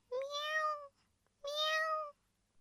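Two drawn-out, high harmonic meows from a kitten, separated by a short pause, with no talk around them.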